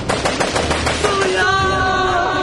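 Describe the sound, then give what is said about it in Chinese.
Loud automatic gunfire in an anti-drug crime drama: many sharp, evenly spaced shots in a rapid burst, giving way to sustained ringing tones. “枪声一响，那就意味着事态失控了，是要出人命。”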